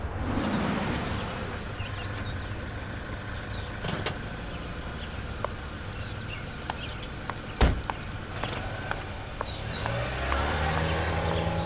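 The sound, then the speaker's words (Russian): A taxi drives along a road in the morning, giving a steady low engine and road rumble throughout, with a few brief clicks and knocks and one sharper thump partway through. “По дороге едет такси.”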